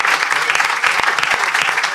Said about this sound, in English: What a fantastic thing. Round of applause for Peter. Thank you, Peter.